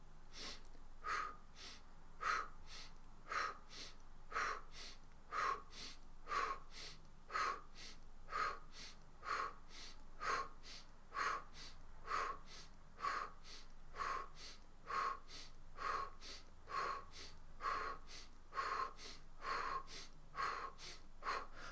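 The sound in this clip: Rapid, rhythmic breathing exercise with forceful exhales through the mouth: many short, sharp puffs of air at a steady pace of about one per second, evenly spaced and alone without talk.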